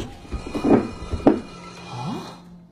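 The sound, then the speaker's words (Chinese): A buried iron plate being opened under soil in a damp, cold spot among rotten wood: a few low thuds and scraping clunks, then a short rising creak near the end. “最后打开了泥土下边的一块铁板。”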